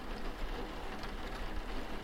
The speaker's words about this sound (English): The rain makes it virtually impossible. Oh, I must admit, it is very calming now that I'm home.